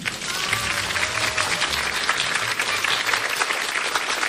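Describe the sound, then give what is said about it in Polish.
Applause from an audience in a meeting tent at a festival in Szklarska Poręba: steady, fairly loud clapping from a crowd that lasts throughout without fading. “licząc na wielkie, gromkie brawa z namiotu spotkań, bo to pewnie nie była łatwa podróż.”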